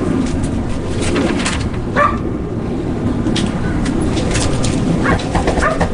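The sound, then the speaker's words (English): A dog barks and whimpers behind a door at a home in San Francisco's Mission District, giving a few short yips and barks over dense, steady background noise. “They pulled the dog away. The dog would constantly be barking.”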